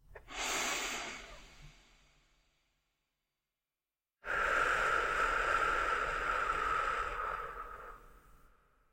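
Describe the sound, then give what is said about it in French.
A deep breath drawn in and let out at the close of a guided meditation, with hands held in prayer before the heart: a soft, airy inhale of about two seconds, a short silence, then a longer, steady exhale that slowly fades. “Prenez une dernière et profonde inspiration.”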